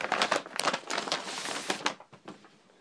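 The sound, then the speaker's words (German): Plastic wrapping crinkles and rustles as a T-shirt, a gift, is unpacked. Many quick, crackly rustles sound alone, fairly loud at first and thinning out over the last second. “Moment, ich muss es kurz auspacken und euch vorlesen. Moment, lege ich mal ganz kurz weg.”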